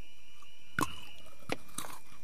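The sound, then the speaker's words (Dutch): Teeth biting into Kendal Mint Cake, a brittle bar of peppermint oil and sugar from the Lake District, England, giving three dry, sharp crunches, the first the loudest, separated by quiet pauses. “Het is de Kendall Mint Cake uit het Lake District Engeland. En hij klinkt zo.”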